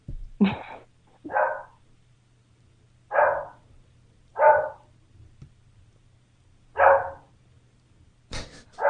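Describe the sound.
Dog barking: six sharp, separate barks spaced roughly a second or two apart over a steady low hum, loud and clear with no talking.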